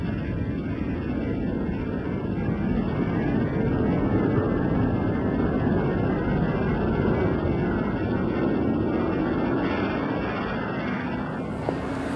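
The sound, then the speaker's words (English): Steady, loud rushing roar of a winged spacecraft landing, with its nose flared up and landing gear down and locked; the broad noise holds level for the whole stretch without clear breaks. “Nose now flared up. Landing gear down and locked.”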